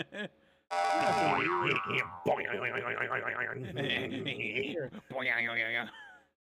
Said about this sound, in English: I'm abstinent followed by boner noise.